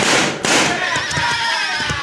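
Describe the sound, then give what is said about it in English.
Two sharp six-gun revolver shots crack out in quick succession at a church weather vane, followed by a lingering high metallic ringing. “Watch me make a spin from the bullets of this six-gun.”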